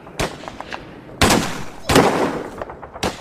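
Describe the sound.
Rifle gunshots in a war drama: several sharp, loud cracks spaced irregularly, each with a short decaying tail, plus fainter pops in between.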